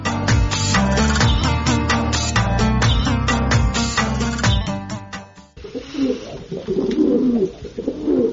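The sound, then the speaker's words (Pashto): Baghdadi and Shirazi pigeons coo in low, soft, rolling calls that repeat. Loud rhythmic music plays first, and the cooing stands alone after it stops. “زما بغداد یو شیراز یو او لټ پټی کوتر په دې ژیړي مازدیګري دانې نوش جام کوي.”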